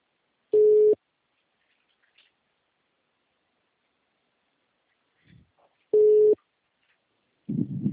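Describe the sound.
A telephone busy tone after a dropped call: two steady, mid-pitched beeps spaced well apart, with a few faint clicks between them and a short burst of noise at the end.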